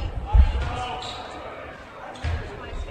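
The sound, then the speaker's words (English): A basketball is dribbled twice before a free throw during a game, giving two heavy, low thumps with a pause between them while a voice talks over the court noise. “Couple of dribbles, couple of spins.”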